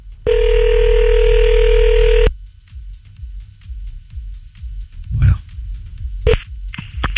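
Telephone ringback tone while calling a woman back during a radio prank call, a single loud, steady buzzing ring lasting about two seconds. Quiet line noise with faint scattered sounds follows.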